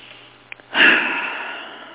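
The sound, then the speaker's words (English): A single deep breath drawn in swells quickly into a loud, airy rush and then slowly fades, after two faint clicks. “Now, take a deep breath.”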